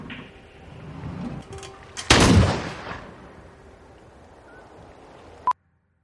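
A single loud gunshot blast with a rumbling tail that fades over about a second, set against low noise. A sharp click follows later, just before sudden silence.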